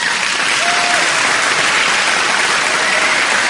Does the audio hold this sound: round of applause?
yes

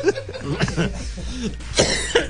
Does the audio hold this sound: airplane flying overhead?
no

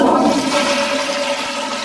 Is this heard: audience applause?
no

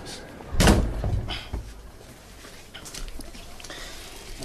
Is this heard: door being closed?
yes

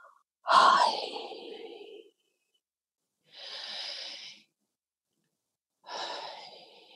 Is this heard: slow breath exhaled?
yes

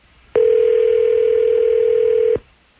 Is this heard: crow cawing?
no

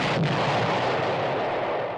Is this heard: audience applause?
no

